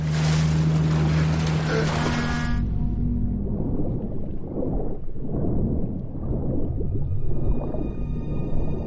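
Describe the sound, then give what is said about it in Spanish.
A boat approaches on the water. Loud rushing engine and water noise fills the opening seconds, then settles into a lower, steady rumble with faint humming tones. “Unas luces le iluminan. Un barco se le acerca.”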